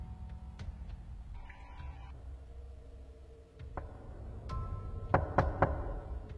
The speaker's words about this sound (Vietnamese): Còn chưa kịp chợp mắt thì bất ngờ tiếng gõ cửa khô khốc lại một lần nữa vang lên.